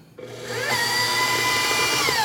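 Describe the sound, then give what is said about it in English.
Stand mixer with a paddle attachment whipping room-temperature cream cheese and sugar, its motor whine starting up and climbing in pitch, then holding a loud steady hum with a faint churning rub underneath. “So what I have is some room temperature cream cheese and sugar in my stand mixer with the paddle attachment. And we're gonna go ahead and start whipping this until it gets nice and light in color and really kind of fluffs up.”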